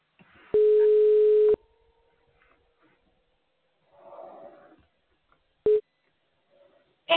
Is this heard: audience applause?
no